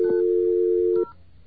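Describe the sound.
A steady telephone tone sounds on a phone line: a single continuous hum that holds for about a second and then cuts off abruptly, leaving faint line noise.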